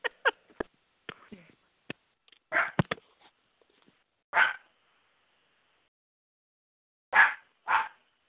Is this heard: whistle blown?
no